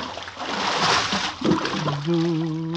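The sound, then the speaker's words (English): Splash of a person pushed overboard from a lifeboat into the sea in a radio drama: a rushing burst of churning water, then a voice crying out while the water noise continues. “Hey, why are you pushing me overboard?”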